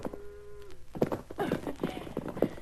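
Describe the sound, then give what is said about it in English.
A pony's hooves thud and clatter as it jumps over bars, a few loud uneven impacts that follow a brief tonal sound at the start. “See my pony clear the bars? And Rack bet he couldn't do it.”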